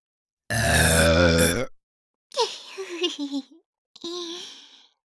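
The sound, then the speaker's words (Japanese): A series of three drawn-out, voiced burps: a long, loud, rumbling first burp, then a wavering, gurgling second one, and a shorter final burp, with brief silences between them. “お礼のザーメンゲップしちゃうね。”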